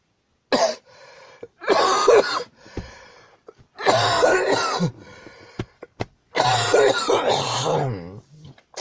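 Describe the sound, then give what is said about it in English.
Harsh, repeated coughing with throat clearing, coming in several loud bursts of rough, wet hacking separated by brief quiet gaps. “Opened up from coughing.”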